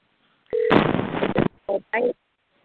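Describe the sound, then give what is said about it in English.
A telephone being dialed to call a guest, starting with a brief steady tone, then a longer harsh burst of line noise, followed by two short separate bursts and silence. “I am not seeing Susun's number in the queue here, so we're going to go ahead and dial her up.”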